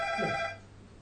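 A mobile phone ringtone sounds as one bright burst of steady electronic tones, then cuts off abruptly about halfway through, leaving near quiet.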